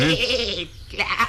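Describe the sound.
A goat bleats twice, loud, nasal and wavering, with a short gap between the two calls.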